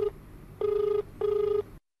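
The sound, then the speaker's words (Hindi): A telephone ringing with an electronic tone: the brief tail of one ring, then two full, even ring bursts of about half a second each. The rings are separated by short pauses and end abruptly in silence. “देखें एक phone भी आई गल बा”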